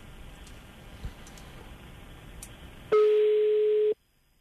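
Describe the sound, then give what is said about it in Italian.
A telephone call tone sounds while a call is being placed: one steady, loud electronic tone lasting about a second, cutting through faint background noise before it stops. “Stiamo provando a chiamare. Vediamo.”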